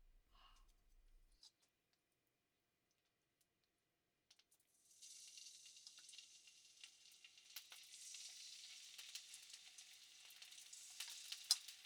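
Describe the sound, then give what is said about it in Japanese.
Meat sizzles as it fries in an oiled frying pan while ginger pork is being made. A few seconds of near-silence with faint clicks come first, then a steady, bright hiss builds and holds, crackling more densely toward the end. “まずはフライパンに油をひいて、このままお肉に火が通るまで焼いていくよ。”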